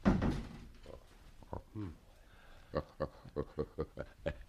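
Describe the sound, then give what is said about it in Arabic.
A door being shut in a radio drama, a heavy thud at the start, followed by a brief voice and a rapid series of short taps. “طب اخرج انت وسيبينا. اقفل الباب علينا.”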